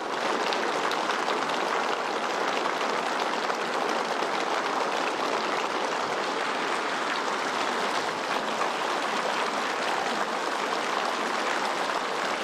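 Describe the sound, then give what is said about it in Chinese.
Warm, sustained applause from a large gathering of delegates in a big hall. The dense clapping stays steady and continuous for the whole stretch, with no talk over it. “习近平等来到人民大会堂北大厅，全场响起热烈掌声。”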